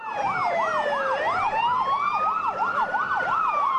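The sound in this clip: An ambulance siren at an emergency scene at a Melbourne train station where people were injured. It wails loudly and continuously, with rapid rising and falling cycles that briefly slow into a longer sweep before speeding up again.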